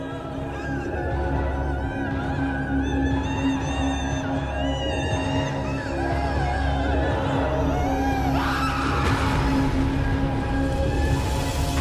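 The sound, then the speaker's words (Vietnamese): Eerie screaming and wailing from a smoke-covered black shadow chasing two fleeing people: long, wavering high cries over a steady low drone, growing louder and harsher toward the end. “Đằng sau, cái bóng đen phủ đầy khói kia đang gào thét đuổi sát theo. Tiếng nó gào khóc, nghe hết sức ghê rợn.”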